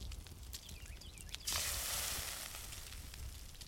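Food sizzles on a video game cooking station as lean meat and mushrooms are cooked: after faint clicks, a loud, steady hissing sizzle bursts in at mid-clip and carries on, slowly easing, to the end.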